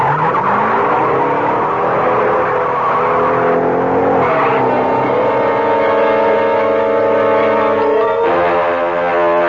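A car drives off at speed, its engine revving and its tires squealing. The roar is loud and sustained, with steady engine tones that shift in pitch and jump sharply near the end.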